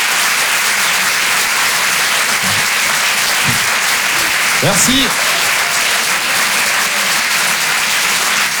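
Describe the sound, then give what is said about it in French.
An audience applauds a comedian after a stand-up set, with dense, steady clapping that holds loud for the whole stretch while a man briefly says thanks partway through. “Faites du bruit, s'il vous plaît, pour Émeric Carré sur Rire et Chanson.”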